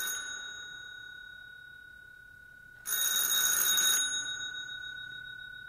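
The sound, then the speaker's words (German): A bell rings in a quiet home: a fading metallic ring at the start, then a bright, rattling burst of ringing lasting about a second before the tone decays away again. “Klingelt.”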